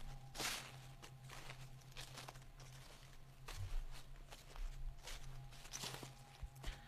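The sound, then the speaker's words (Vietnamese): Footsteps crunch over dry leaves in a banana garden, a few irregular rustling steps at moderate loudness, over a low steady hum. “Đúng lúc ở ngoài vườn chuối lại có tiếng chân người dẫm lên lá khô sần soạt.”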